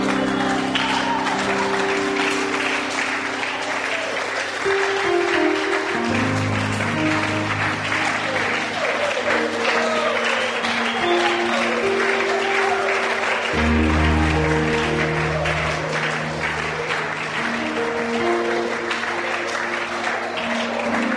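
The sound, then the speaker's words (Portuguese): A church audience clapping and applauding for the Lord: dense, steady applause from many hands that keeps going throughout, layered over music with sustained low notes. “Stand to your feet and put your hands together for the Lord. Fique de pé, bata as palmas para o Senhor.”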